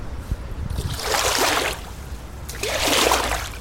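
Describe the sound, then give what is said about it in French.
Water sloshes and splashes as a boat hook is drawn through the water beside a houseboat to retrieve a floating bottle, in two distinct rushing bursts over low background noise. “Ça nous permet de récupérer plein de choses, les trucs qui flottent sur l'eau. Donc je vais vous montrer la gaffe, comment ça marche.”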